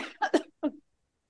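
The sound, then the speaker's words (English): A few short, harsh coughs and throat-clearing bursts come in quick succession, fairly loud and alone, then fade to silence. “Excuse me. Got something caught in my throat.”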